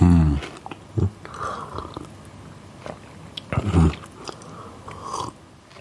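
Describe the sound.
Crunching bites and chewing as a biscuit is eaten with coffee. A few louder crisp crunches stand out from softer, wet chewing.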